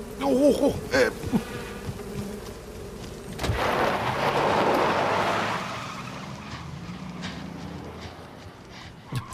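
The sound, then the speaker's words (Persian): Bees buzzing inside a car during a traffic stop, a dense, sustained hum that swells and then fades, with a brief voice at the start. “این صدای چیه؟ زنبورام. چیات؟ زنبور، من زنبور دارم”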